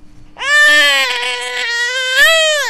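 A baby crying in one long, loud, high-pitched wail that holds steady and swells briefly near the end.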